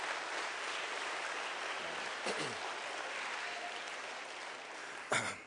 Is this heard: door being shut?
no